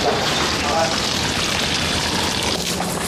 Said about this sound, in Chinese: 这个薄荷给它浇浇水。